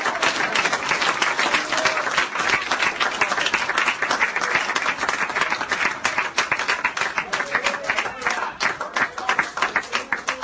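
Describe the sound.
Applause from a church audience, a dense, steady clapping that holds at an even loudness for the whole stretch, with no voices standing out above it.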